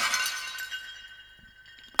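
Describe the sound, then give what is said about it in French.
Dishes and glass shatter in a house, leaving a bright, thin ringing that fades slowly before a sudden sharp crash of breaking at the very end. “Tout ce qu'il y avait de fragile dans sa maison fut brisé, morcelé pièce à pièce.”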